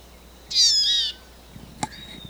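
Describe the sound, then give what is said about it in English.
A wild female bird gives a loud, high, steady whistled call lasting about half a second. A sharp click and a fainter, thin whistle follow over quiet background hiss. “We have a wild female over the top. A wild bird.”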